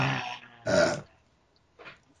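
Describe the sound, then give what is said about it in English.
A single burp: a short, low, guttural belch that rises out of quieter rumbling sounds. A brief faint noise follows after a pause. “It wouldn't be a podcast without a burp.”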